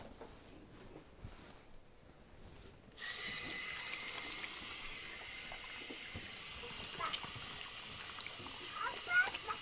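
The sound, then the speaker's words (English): Running tap water as hands are washed under it: a steady broad hiss of flowing water starts abruptly after about three quieter seconds and continues evenly to the end. “Washing my hands.”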